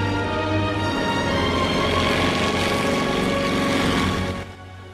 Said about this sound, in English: Already airborne is Billy, who smiles as he flies along. The planes bank left in a loose formation.